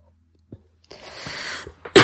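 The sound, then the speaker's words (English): A sudden tickle attack during a sermon: a long breathy rasp, then one sharp, loud explosive burst at the end, with no talk around it. “I'm sorry, I've got a tickle attack.”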